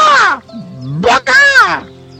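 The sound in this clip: A voice imitates the call of an Icelandic bird in loud, nasal, squawking cries: a long harsh call, a short burst, then a longer wavering cry that trails off.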